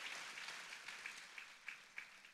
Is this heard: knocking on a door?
no